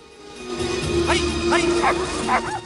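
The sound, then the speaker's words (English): Sled dogs, eight in harness, yipping and barking as they pull a sledge over snowy, frozen mountain ground. Several sharp, high barks ring out in the second half over a steady low rumble. “Eight dogs pull the sledge over the snowy ground as Forrest”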